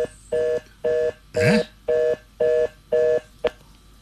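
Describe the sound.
Six evenly spaced keypad tones from a phone being dialed, each a steady two-note beep of about a quarter second in a regular rhythm, followed by one short sharp click.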